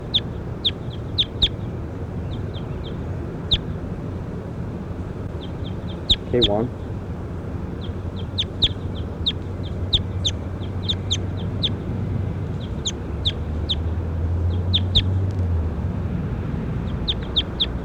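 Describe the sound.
A chicken clucking during a recording session: many brief, sharp, high-pitched calls scattered irregularly over a steady low background noise, with one quick trilling call near the middle.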